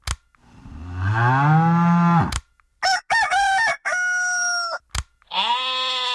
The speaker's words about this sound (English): Can I press them? Of course. They make farm animal sound.